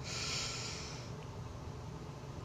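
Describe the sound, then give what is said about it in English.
Deep, deliberately exaggerated inhale through the nose: a soft, airy hiss for about a second that fades into quiet. The sound is faint overall. “I'm gonna over-exaggerate just so you can hear me inhaling”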